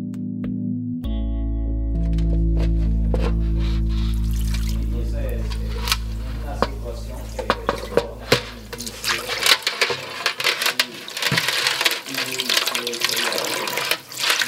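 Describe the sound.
Water runs from a tap while someone washes the surface where flour is weighed in a bread-making room at a rehabilitation centre for former gang members in El Salvador. A steady rushing flow follows a sustained low drone, with people talking.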